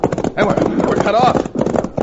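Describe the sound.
Horses galloping in a Western-style scene, dense hoofbeats pounding in a continuous clip-clop beneath loud, shouting men's voices.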